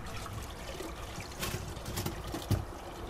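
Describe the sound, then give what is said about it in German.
Faint running water from outdoor washbasins in front of a campsite sanitary building, where a man rinses: a low, steady trickle with a few brief louder swells. “An den Waschbecken vor dem Sanitärgebäude spült ein Mann”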